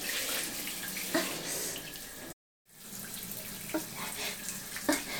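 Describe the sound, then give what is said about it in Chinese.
Water pours from a faucet whose valve will not close, a steady, fairly quiet hiss of running water that continues almost without pause, broken only by a brief silent gap. “是不是因为这个水龙头的阀门关不上了呀？”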